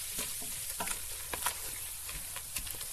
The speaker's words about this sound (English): I'm going to take this beer. I'm going to knock it in here. And I'm going to break up the rest of that fawn. I'm going to get it all off the bottom